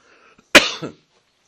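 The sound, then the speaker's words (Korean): One sharp, loud cough bursts out from a person who is preaching. The harsh explosive onset fades into a brief raspy tail, heard alone against near silence. “죄송합니다. 기침이 또 시작이 되면.”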